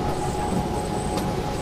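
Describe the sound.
Continuous rumble of a passenger train ride, steady and fairly loud throughout, with a brief higher squeak near the end and no voices.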